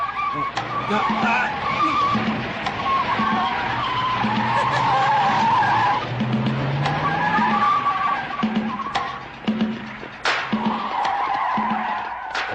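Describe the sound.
A car brakes hard and skids to a stop, producing a loud, sustained tire squeal with a harsh, noisy texture that holds for several seconds before easing off.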